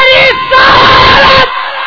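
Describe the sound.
A crowd answers a Nara-e-Takbeer call with a loud unison shout of Allahu Akbar at a religious gathering: a short burst, a brief dip, then a sustained cry of many voices that cuts off sharply, leaving a faint tail.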